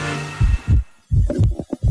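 A heartbeat, evoking the first heartbeat of a pregnancy, heard as a few low, muffled paired thumps in a steady rhythm after a tonal sound fades out at the start.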